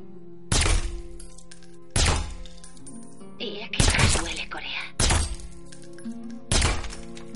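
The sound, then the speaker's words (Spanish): Five suppressed gunshots fired into wooden planks, each a sharp, heavy crack with a thudding body. They come at irregular intervals over a steady tonal backdrop. “se cubre una oreja y dispara sobre unas tablas de madera.”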